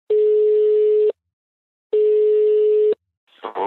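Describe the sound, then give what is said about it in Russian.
Ringback tone of an outgoing telephone call: two steady, mid-pitched beeps of about one second each, separated by silence, then a short burst of noise at the end. “Сейчас мы позвоним Ане и обсудим это.”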